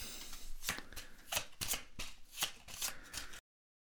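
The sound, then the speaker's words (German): Shuffling of a deck of playing cards: many repeated papery riffles and flicks in quick bursts, moderately loud and heard alone, until the sound stops abruptly near the end. “Ich widme mich dem Neumischen. Du sagst, wir ziehen noch eine neue Karte. Das heißt, Blöde mit minus 2 kommt nochmal hinzu. Ich mische. Mische, mische.”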